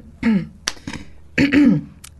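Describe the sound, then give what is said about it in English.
A person clears their throat in two rasping, voiced bursts, with a few short clicks and breaths between them, close and fairly loud against a quiet background. “I love the way you cleared your throat.”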